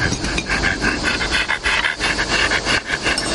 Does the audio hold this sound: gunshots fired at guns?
no

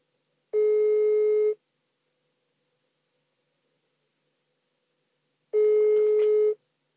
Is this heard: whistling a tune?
no

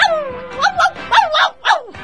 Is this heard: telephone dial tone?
no

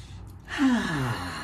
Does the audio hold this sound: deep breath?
yes

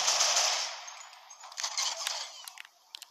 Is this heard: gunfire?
yes

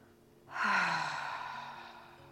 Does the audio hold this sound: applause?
no

